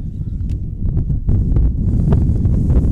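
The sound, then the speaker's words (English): Wind buffets the microphone at an outdoor softball game, a steady low rumble with gusty swells that grows slightly stronger after the first second. Nobody speaks. “The darker it gets, even the harder the wind blows.”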